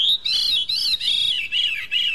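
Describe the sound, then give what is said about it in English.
A veery singing: a run of high, fluty, ringing phrases, each arching and slurring, repeated one after another with only brief gaps, loud and clear on their own. “the veery has one of the most beautiful bird songs I've ever heard.”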